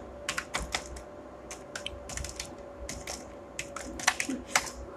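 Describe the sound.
Rapid typing of a web address on a computer keyboard: many quick, irregular keystrokes clicking in short bursts and pauses, fairly faint and with no voices.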